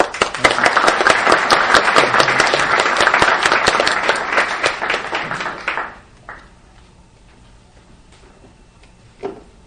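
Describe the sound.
Audience applause welcoming a speaker at a talk on the Green Scare and state repression: dense, loud clapping for about six seconds, then it quickly dies away, leaving a few scattered claps.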